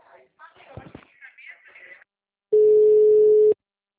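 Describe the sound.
A phone tone after a dropped call: one steady, mid-pitched beep holds for about a second, following a short stretch of muffled voice and a pause.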